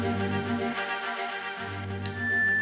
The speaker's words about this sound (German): Sie haben eine neue Nachricht von Le Vicomte de Valmont an la Marquise de Merteuil.